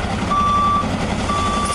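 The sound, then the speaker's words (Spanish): Fire truck warning beeps during work to extinguish a wildfire in the Cinco Villas area of Zaragoza: two long, steady, reversing-alarm style tones over a continuous rumbling engine and outdoor noise. “Este es el sonido de los bomberos apagando las llamas.”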